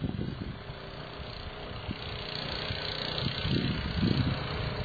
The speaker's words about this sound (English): I presume we won't hear any sound from these people conducting it, correct? Just a motor or the pump? Just the motor.